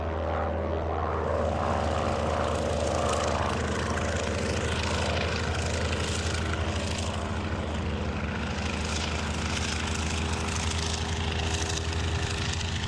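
A propeller airplane coming in to land, its engine droning in a steady, unbroken hum that holds an even loudness for the full thirteen seconds, with no talk over it.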